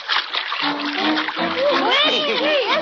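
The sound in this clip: Splashing water churns steadily as a creature swims fast, using its tail as a propeller. High whistling tones and voices sound over the splashing.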